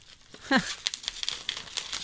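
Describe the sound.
A crinkly plastic packet of rusks is opened with a quick run of sharp crackles and rustles. A brief vocal sound comes near the start, and then the crinkling goes on in bursts.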